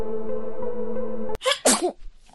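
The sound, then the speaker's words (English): A child sneezes once on a spinning teacup ride: a loud, sharp burst with a short breathy tail, right after a steady humming tone cuts off abruptly. “he sneezes. You continue spinning around, the sneeze particles slowly reaching you”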